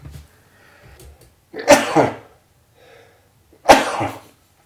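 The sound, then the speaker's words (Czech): Two loud, explosive sneezes are spaced about two seconds apart. Each is a sharp burst with a noisy tail, and faint breaths and rustles fall between them. “když se kejchne, říká se, je to pravda.”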